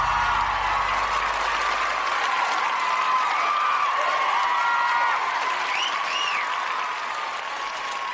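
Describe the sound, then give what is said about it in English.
An audience applauds to welcome the hosts of a show onto the stage, a thick, even wash of clapping from many hands that stays loud and steady throughout before easing slightly at the very end. “Ladies and gentlemen, put your hands together for the Podcasters.”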